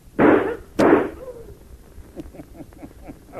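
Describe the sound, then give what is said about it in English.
Two loud gunshots ring out in a radio drama scene set at a bank, each a sharp blast with a short rumbling tail, about half a second apart. Faint low sounds follow. “Oh, that sure was good shooting, Mr. Peter. He dropped without even seeing it.”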